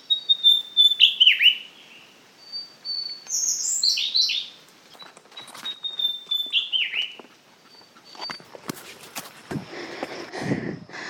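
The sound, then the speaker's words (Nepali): Birds singing along a mountain path: bright, high whistled phrases with quick falling notes, repeated in separate bursts. Softer rustling and low thumps follow near the end. “अझै हामी हिँड्दैछौँ चराहरूको गीत सुन्दै”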